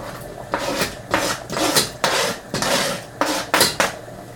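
Stirring of tomato sauce with chunks of canned tomato in a pan over a low flame, a utensil scraping and clinking against the pan in many quick, irregular strokes with short pauses between them.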